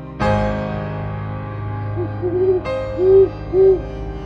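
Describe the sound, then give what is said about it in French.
An owl hoots a few times in soft, rounded, low-pitched calls, coming in near the end over a sustained, ringing low tone. “Le hibou, parmi les décombres, hurle”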